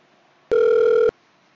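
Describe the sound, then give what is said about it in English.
A single steady telephone tone signals an incoming call, a clear mid-pitched beep lasting about half a second before silence. “looks like we got a caller on the line, and let's see.”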